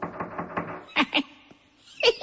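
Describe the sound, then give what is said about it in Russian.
Two quick finger taps on a door, sharp and close together, follow a short stretch of talk. A further brief burst of sound comes near the end. “Он подошел к двери и задумчиво постучал по ней пальцами.”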